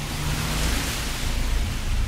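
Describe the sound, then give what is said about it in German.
Rain and wind in a dense, steady hiss over a rumbling low end, fairly loud and constant throughout with slight gusting surges. “Es regnet. Ich renne. Der Regen prügelt mein Gesicht. Der Wind beleidigt mich, steht mir im Weg.”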